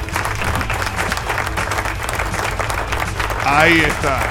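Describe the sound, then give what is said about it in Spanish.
Audience applause on a radio program: brisk, continuous clapping from a crowd at an even level, with a voice briefly rising over it near the end. “Aplauso.”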